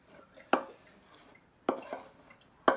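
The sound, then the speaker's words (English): Three sharp knocks ring out as a wooden spoon is tapped against a bowl to shake leftovers off, each crisp hit separated by near-silence. “let me throw whatever's off my spoon. I'm going to try to add whatever, if there's anything left in my bowl.”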